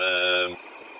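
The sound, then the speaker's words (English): A bus engine just started and idling, a steady buzzing hum with a rich even drone that drops away abruptly after about half a second, leaving a faint residue. “Hey, I got the bus going.”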